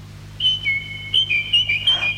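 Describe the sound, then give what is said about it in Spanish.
A nightingale sings from a window in a few sustained high whistled notes that step back and forth between two close pitches, clear and bright over a steady low hum. “¡El ruiseñor del campo canta desde la ventana! Ruiseñor, mi ruiseñor, has regresado.”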